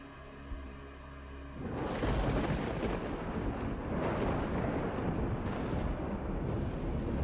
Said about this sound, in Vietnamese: Chỉ thấy chân trời lúc này lóe lên những tia sáng lập lòe. Sau đó là tiếng sấm long trời lở đất vang lên.